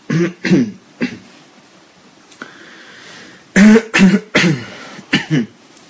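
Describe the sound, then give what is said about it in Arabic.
A man coughs and clears his throat during a religious lecture. One burst of sharp coughs is followed by a quiet pause, then a second, louder run of several harsh coughs. “نعمل زي الناس اللي بيقولوا بقى عفوا لما يكحوا كده”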